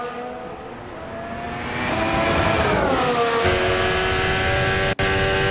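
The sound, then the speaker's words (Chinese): Formula 1 race cars with hybrid power units overtaking on track make a loud, high tonal engine roar. It swells midway as the pitch slides downward, then holds steady. “拉塞尔这边过掉了，安东内利再次是利用尾流啊，尾流效应这条赛道非常友好。”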